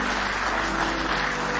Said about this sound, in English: Let's give him one more hand clap of praise this morning.